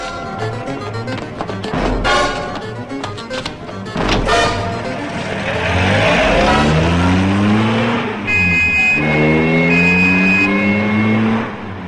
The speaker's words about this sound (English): The police car, emitting a plume of thick grey exhaust, speeds along a cobbled street parallel to a river or canal.